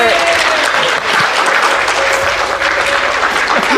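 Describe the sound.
Audience applause at a live .NET developer panel at DevTeach Toronto: dense, steady clapping from many hands fills the whole stretch, with a voice faintly audible over it.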